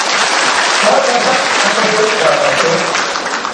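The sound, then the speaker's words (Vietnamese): Applause from an audience at a Buddhist sermon, a dense, steady clapping that stays loud and even through the whole stretch. “quý vị vỗ tay đi”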